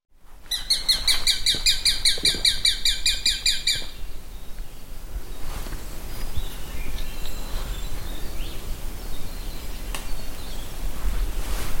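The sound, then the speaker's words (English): A Carolina wren sings a loud, rapid run of repeated high chirping phrases for the first few seconds. A steady outdoor hiss and faint scattered sounds follow, with no talking. “Carolina wren.”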